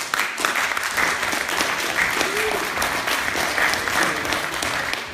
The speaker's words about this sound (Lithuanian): plojimai, plojimais viskas tvarkoja